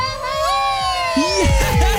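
A group of lads in a studio shouts and cheers, with excited whoops and yells swelling in the second half over a sustained tonal backdrop.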